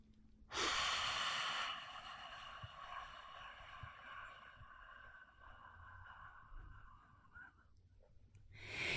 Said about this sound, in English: And then do that again, another big deep inhale. Pause at the top.